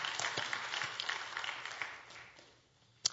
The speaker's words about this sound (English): Come on, give the Lord a hand clap right there.